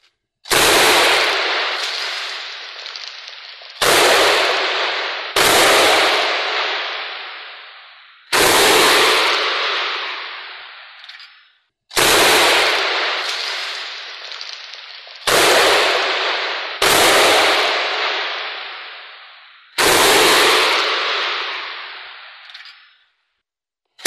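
Gunfire from armed fighters at military buildings: several loud, sharp shots at irregular intervals, each followed by a long rumbling tail that fades before the next, with no voices.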